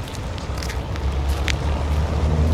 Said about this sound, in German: Na, egal, ich fahre jetzt mal hin.